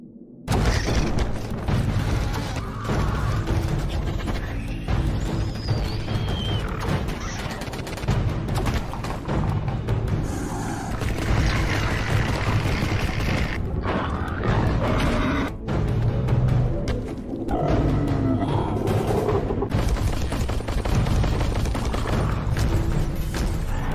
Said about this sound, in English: Stand by. Plasma grenade. Burst fire.